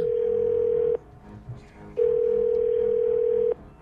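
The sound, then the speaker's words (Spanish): A telephone dial tone sounds while a call is redialed: a steady, loud single-pitched tone stops, then returns after a short gap filled with faint background noise. “Vuelve a marcar.”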